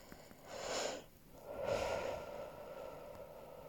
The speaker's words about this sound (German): Atme.